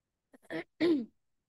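Someone clears their throat: a couple of faint, short catches lead into one louder, rough, guttural rasp, then quiet.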